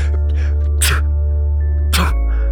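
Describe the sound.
Allergy sneezes burst out twice, each a sharp, noisy blast over a low, steady hum.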